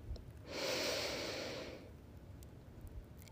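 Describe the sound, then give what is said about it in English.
A single deep inhale during a guided meditation: one long, soft, airy breath drawn in steadily for over a second, then easing off into quiet, with no voices. “We'll inhale for Om. Deep inhale.”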